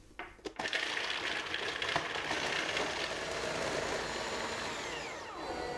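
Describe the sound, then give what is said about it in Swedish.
A blender whirs loudly as it purées sun-dried tomatoes, garlic and salt. A few knocks come first, then a steady, dense motor roar that winds down at the end. “Och så har jag en liten vitlöksklyfta. Yep. Vitlöksklyftan. Mixar vi.”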